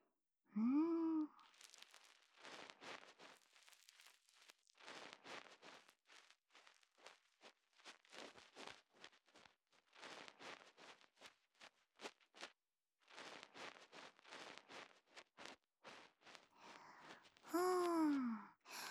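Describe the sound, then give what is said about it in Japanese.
Ear cleaning on the outer ear makes soft, scratchy rubbing in many short bursts, faint and close. A quiet voice is heard at the start and again at the end. “ではでは、お耳のお掃除始めていきます。まずは外側のところから、こうして、”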